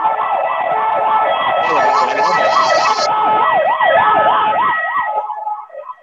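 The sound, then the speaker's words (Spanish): An ambulance siren wails in a fast, regular up-and-down sweep, loud and steady for several seconds before tapering off and breaking up at the end, with faint road noise beneath. “Viene una ambulancia.”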